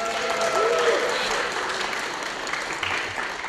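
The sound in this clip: Audience applause at the Pacific Astronomy and Telescope Show in Pasadena, California, from a crowd of amateur astronomers: a dense, steady wash of clapping that holds at an even level throughout.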